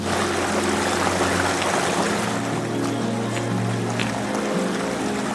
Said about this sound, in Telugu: This place is called బ్రిగు water falls. ఇక్కడ చాలా చిన్న చిన్న కలర్ఫుల్ స్టోన్స్ దొరుకుతూ ఉంటాయి.